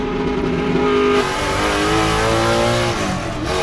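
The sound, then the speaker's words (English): Loud Jaguar race-car engine roaring down a narrow straightaway in the 24 Hours of Le Mans, a steady, dense drone whose layered tones shift and waver in pitch throughout, with no talking. “Mike Hawthorn's Jaguar approaches the narrow straightaway. He's in the lead with the two Mercedes drivers in hot pursuit.”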